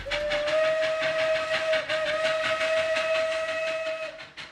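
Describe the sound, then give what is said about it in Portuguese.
A steam whistle from the restored Maria Fumaça steam locomotive of Ponta Grossa blows one long, steady, loud tone with bright harmonics. The tone is held almost unbroken throughout. “O trecho que a gente acabou de ouvir, retirado de uma reportagem da RPC, trazia os preparativos para a entrega da Maria Fumaça reformada, uma marca importante da história dessa locomotiva”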